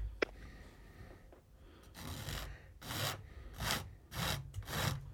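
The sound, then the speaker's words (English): About five rasping scrapes of a tool shaping a model mountain, each a short, rough, gritty stroke like filing, coming in a loose rhythm after a quiet start with a faint click. “And once I get the shape in, I'm just going to scrape it all. Scrape it. Scrape it down.”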